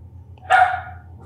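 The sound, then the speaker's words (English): A dog gives a single sharp, loud bark partway through, standing out alone above a steady low hum that runs throughout. “There's a dog.”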